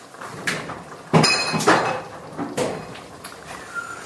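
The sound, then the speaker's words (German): A teaspoon stirs spicy sambal oelek into a pot of food in a kitchen, giving a few irregular metallic clinks and knocks against the vessel, moderately loud and without speech. “Dann habe ich jetzt, ja, Entschuldigung, habe ich einen schönen Teelöffel reingemacht.”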